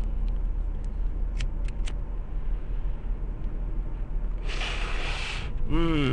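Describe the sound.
A smoker draws in a hit of mixed cannabis buds, three kinds ground together, heard as one airy, hissing inhale about a second long near the end after a quiet stretch.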